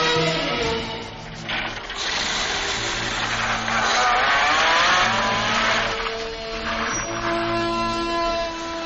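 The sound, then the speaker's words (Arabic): A borrowed car drives off, its engine revving loudly through repeated surges of acceleration with squealing tires, the roar continuous for about nine seconds. “طب إيه رأيك في لفها بالعربية في النسيم العليل ده؟ إيه؟ عندك عربية؟ لا، استلفتها من واحد صاحبي.”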